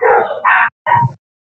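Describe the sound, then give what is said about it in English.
Dogs barking in a video game: a few short, loud barks in quick succession, the last one coming after a brief pause. “That sounds like there's like a bunch of dogs running around in there.”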